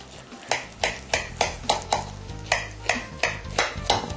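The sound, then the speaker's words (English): A utensil scoops a portion out of a baked dish with a golden-brown crust, making a quick, regular run of many short scraping strokes with light clinks against the dish. “Scoop a nice portion out of here.”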